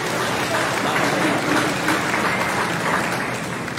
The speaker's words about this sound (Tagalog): Palakpakan natin ang Lord.